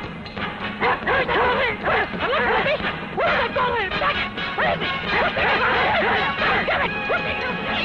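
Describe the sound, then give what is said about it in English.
A dog barks over and over in quick succession, loud yelping barks running almost without pause through a busy, noisy mix. “A dog barking and my neighbor Rose”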